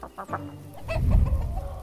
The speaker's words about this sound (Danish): Hønemor har lagt mange æg i redekassen og er nu klar til at placere sin store varme krop oven på dem.